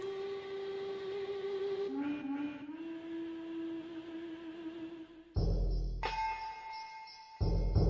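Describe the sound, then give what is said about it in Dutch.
A steam locomotive whistle used as a musical instrument: a long, reedy harmonic tone held steady, dipping slightly in pitch near two seconds, then broken by louder noisy blasts and a higher sustained tone toward the end. “hij, gebruikt de stoomfluit van een locomotief als instrument”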